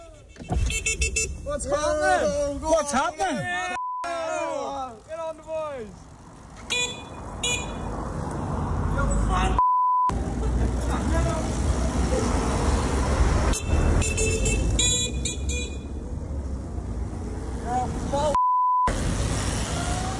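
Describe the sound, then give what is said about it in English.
Horn toots from a group of masked young men on scrambler bikes doing wheelies and weaving through road traffic: short, bright beeps repeat over a steady rumble of engines and traffic, with a voice talking early on. “So when you hear them tooting the horn and things there, what they were actually doing was doing wheelies up the road, weaving in and out of cars and traffic”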